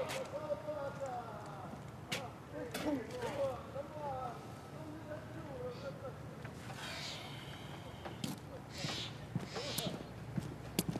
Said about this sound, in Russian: Мимо проезжает на лошади.